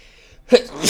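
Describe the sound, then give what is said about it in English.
A single abrupt sneeze bursts out after a near-silent moment, sharp and loud, trailing off into a breathy exhale. “I feel like I got to sneeze. So I'm going to wait a second on that one”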